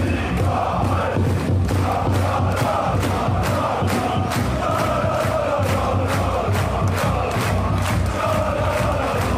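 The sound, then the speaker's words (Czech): Loud, steady roar of Schalke football fans celebrating a 1-0 win over Düsseldorf in Gelsenkirchen, a dense wall of crowd cheering and chanting that holds for the whole clip, with regular pulses running through it. “Fotbalisté Schalke mohli začít slavit v sobotu večer, když porazili Düsseldorf 1-0. Hodně hlučno bylo na stadionu, ale i v ulicích Gelsenkirchenu.”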